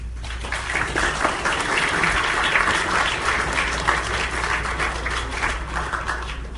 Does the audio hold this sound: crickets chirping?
no